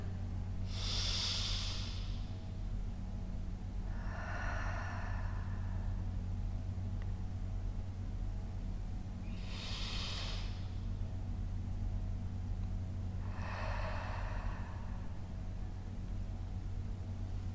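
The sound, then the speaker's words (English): Slow, deep breathing during a guided relaxation exercise: four long, airy breath sounds spaced several seconds apart, heard alone over a steady low hum. “Inviting your breath to begin to deepen.”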